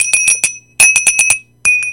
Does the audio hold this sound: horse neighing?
no